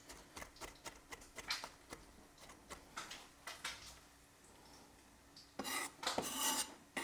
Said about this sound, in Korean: 요즘엔 다진 마늘을 그냥 쓰는 경우도 많죠 근데 이게 바로 다져서 넣으면 음식이 더 맛있어요 확실히